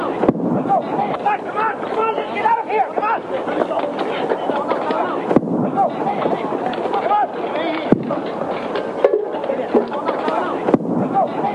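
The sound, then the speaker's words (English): Four sharp bangs from reduced-charge special-effects bombs on a film set, spaced irregularly. Each is a short percussive crack above a busy, continuous rumbling background. “There were 4 bombs, 4 explosions. Usually the sound of an explosion is magnified with sound effects in the final cut of the show. And for safety reasons, smaller charges are usually used when you're filming. Now, they're supposed to sound like this,”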